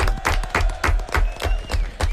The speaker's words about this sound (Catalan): Un aplaudiment, molt bé.